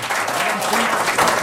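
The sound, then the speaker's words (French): Applause from an audience: a steady, dense patter of many clapping hands fills the whole short stretch at an even, fairly loud level, with a faint voice underneath. “Nul autre que M. Robert Lepage, qu'on applaudit.”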